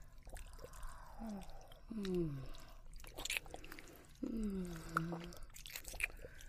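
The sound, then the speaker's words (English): Wet licking along a neck, quiet smacks and soft slurping clicks with a few sliding, voiced hums drawn out between them. “Just let me lick along this vein.”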